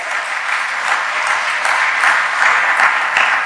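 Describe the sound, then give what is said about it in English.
Church audience claps hands in praise for the choir singers, a loud, dense wash of clapping that holds steady throughout. “Lord, let's give God a hand clap of praise for all the singers up”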